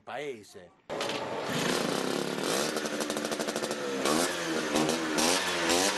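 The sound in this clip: Ape vehicle engine revving, a loud, buzzing drone that cuts in abruptly after a short spoken moment and holds steady with rapid pulsing revs, while voices talk over it.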